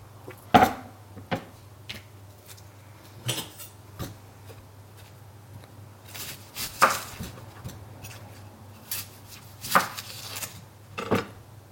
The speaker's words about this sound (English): Just roughly chop. It's all going to be put in together. Chop an onion.